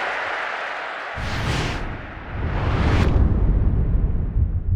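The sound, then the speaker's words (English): Crowd applause and cheering after a rugby try, a broad, rushing roar that breaks in abruptly, dips briefly, then swells louder and holds to the end. “Glenn Webb, the newcomer, scores his sixth try of the season. And it deserves the applause.”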